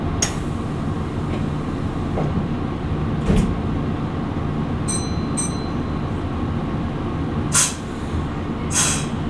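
A train departs with a steady, loud rolling rumble. A few short bursts of hissing air are heard over the rumble.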